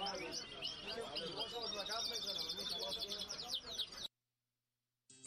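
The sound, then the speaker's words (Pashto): Pet canaries chirping, a dense, busy chorus of overlapping high trills and tweets. It cuts abruptly to silence, then returns briefly at the end. “تنها وایی چه دی خپل مرغانو سره دیر مینه لری او لکه د خپل ماشومانو یه خیال ساتی.”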